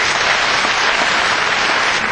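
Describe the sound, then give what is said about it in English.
Crowd applauding young classical musicians after a prize announcement on a cold winter night in Pretoria, a loud, thick, unbroken roar of clapping that stays level throughout. “Applause by the crowd who braved the cold winter Pretorian night to come support the talented musicians”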